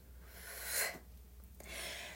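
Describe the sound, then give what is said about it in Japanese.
Slow exhalations during a guided breathing exercise, a soft airy rush of breath that swells and fades, followed by a second quieter breath, faint and alone. “吐きますもやもややイライラも息と一緒に吐き出すイメージでデトックスです”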